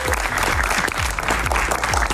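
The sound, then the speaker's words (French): An audience in the Salle Saint-Pierre, Florennes, gives loud, steady applause, with many overlapping claps forming a continuous, even wash of sound throughout. “Et rien que pour ça, vous pouvez encore vous applaudir, les amis.”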